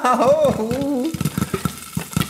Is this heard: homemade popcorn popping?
yes